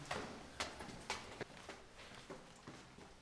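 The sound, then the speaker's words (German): Faint footsteps climb one floor up to the synagogue of a Liberal Jewish community, many light taps in a steady, even rhythm with no voices over them. “Ja, dann würde ich sagen, gehen wir hoch und schauen uns die Synagoge selbst an. Ach so, wir müssen quasi jetzt eine Etage höher. Genau, wir ah, gehen jetzt eine Etage höher.”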